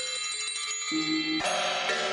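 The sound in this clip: Bell-like metallic tones sound in a contemporary percussion composition. A few struck notes ring out with sustained, shimmering overtones, and a brighter, louder strike midway adds a dense cluster of high ringing partials.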